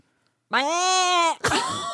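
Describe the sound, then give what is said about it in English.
A person's voice imitates a screaming goat with a loud, sustained, strained bleat rich in harmonics. It holds steady for under a second and is followed by a second, rougher cry. “I'm gonna try and do my actual goat impression. It's pretty accurate.”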